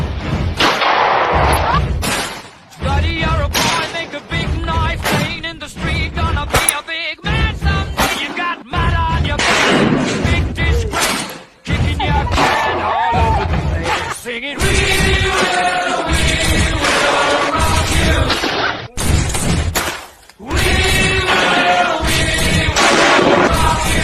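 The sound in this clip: Gunshots from an assortment of people firing guns: many loud, sharp bangs and thuds scattered throughout, mixed with voices and other noise.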